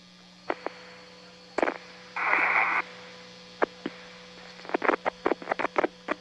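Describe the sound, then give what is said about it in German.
Radio static from a space shuttle link to mission control after its last transmission was lost: sharp clicks and pops, a short burst of hiss in the middle, and a steady low mains hum beneath, with no voices. “Nichts, nur noch Rauschen.”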